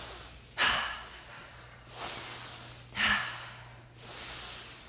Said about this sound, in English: what we're going to do is just raise our shoulders up to our ears in 5 deep breaths.